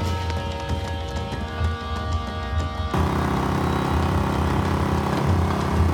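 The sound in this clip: A jeep engine runs with a steady low drone and buzzing harmonic hum, then jumps to a louder, rougher and denser roar about halfway through, with no voices.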